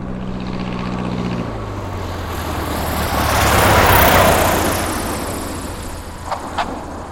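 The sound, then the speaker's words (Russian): Heavy Luftwaffe aircraft engines drone over a city, a broad, rumbling roar that swells steadily to a loud peak and then slowly fades, with no voices. “Теперь команда сидели на чердаке и ждали, когда над городом загудят тяжелые моторы самолетов Люфтваффе.”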